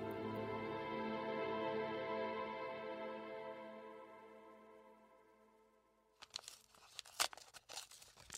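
A dirty paper envelope is torn open, a short run of crisp ripping and crinkling bursts that comes in after a sustained musical tone fades away.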